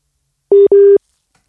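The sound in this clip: Telephone busy tone after a dropped call: two steady mid-pitched beeps in quick succession, the second slightly longer, followed by silence.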